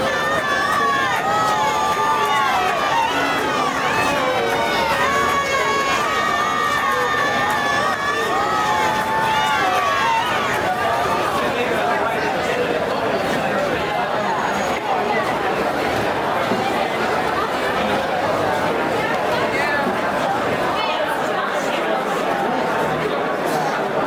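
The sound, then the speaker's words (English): A crowd running through the streets celebrating newly won freedom: a continuous, loud mass of overlapping voices and chatter with scattered shouts, sustained without a break. “All around them, people run through the streets, celebrating their newly won freedom.”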